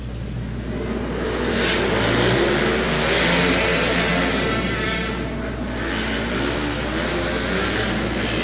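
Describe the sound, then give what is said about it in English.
Race vehicles on the final lap of a race make a continuous loud engine roar that swells a couple of times as they pass, with no voices. “Verano and Medrano racing 1 and 2. We've seen this battle over and over again for the past several years. Here's the white flag, one lap to go.”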